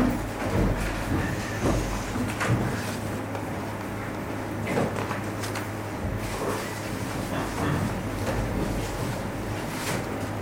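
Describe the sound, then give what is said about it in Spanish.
A commuter train approaches a station with a steady low rumble and hum beneath broad rushing noise, marked by scattered rattles and surges throughout. “Se acerca un tren oscuro.”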